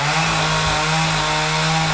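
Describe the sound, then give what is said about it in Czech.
A chainsaw cuts into a large oak trunk as a woodcarver roughs out an animal sculpture at a wood-carving symposium. It gives a loud, continuous whining drone with a steady low hum that holds throughout, and no talk is heard. “přede mnou pilou opracovává velký dubový kmen, ze kterého za necelý týden vznikne nová dřevěná socha.”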